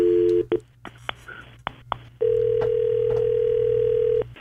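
An outgoing telephone call: a brief tone and a few quick dialing beeps and clicks, then a long, steady ringing tone that holds for about two seconds before cutting off.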